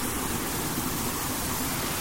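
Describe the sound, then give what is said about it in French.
Water cascading down the Farako waterfalls, near a village outside Sikasso, makes a continuous, even rushing roar with no breaks or other sounds. “Ce bruit est celui de l'eau descendant la colline. C'est ici les chutes de Farako, un village situé à 25 km de Sikasso.”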